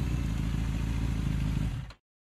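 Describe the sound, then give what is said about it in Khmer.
A motorcycle rides up and stops in front of a food stall. A steady, rough engine rumble carries for almost two seconds, then fades quickly and falls silent. “ហេងបានជិះម៉ូតូមកឈប់នៅមុខតូបសាវ៉េត”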